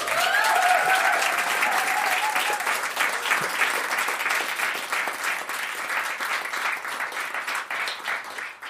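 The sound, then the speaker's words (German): Loud, dense applause from an audience at a live recording in Bikini Berlin, many hands clapping in a continuous roar that eases slightly toward the end. “War gut mit dem Applaus, oder?”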